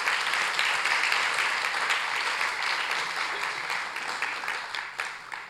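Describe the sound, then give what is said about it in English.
Congregation applauding during a church service: dense, steady clapping that fills the whole stretch and eases off slightly toward the end. “And let's clap for Audre Lorde. She was amazing.”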